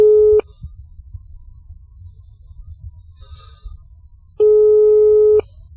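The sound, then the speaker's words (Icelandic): Telephone ringing tones on an incoming call: two steady, loud electronic tone bursts, the first cut short, separated by a long, quiet gap. “síminn farinn að hringja heyri ég”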